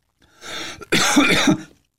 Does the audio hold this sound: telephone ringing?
no